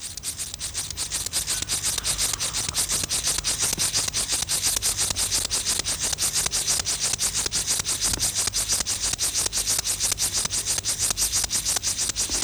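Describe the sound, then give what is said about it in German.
Linnaeus grasshopper, a small field grasshopper, stridulating by rubbing its hind legs over its wing covers: a steady, rasping buzz of rapid, evenly spaced pulses that continues unbroken and fairly loud throughout. “Besonders gut eignet sich dazu der Linnaeus-Grashüpfer. Das ist eine kleine Feldheuschrecke. Sie erzeugt ihren Gesang, indem sie die Hinterschenkel über die Flügeldecken reibt.”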